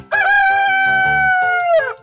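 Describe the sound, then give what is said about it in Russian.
A rooster crows once, a loud drawn-out cock-a-doodle-doo of nearly two seconds, holding a strong steady tone before breaking off at the end. “Это петух.”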